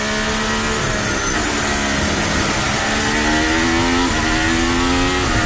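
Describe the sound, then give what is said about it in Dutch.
A Formula One car engine recorded onboard gives a loud, continuous high-pitched whine that climbs steadily in pitch, with brief dips at gear changes. “We zijn aan boord bij Lewis Hamilton.”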